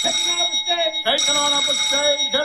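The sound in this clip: An electric bell rings on a film set as the signal before a take, a loud, continuous buzzing ring with one brief break partway through.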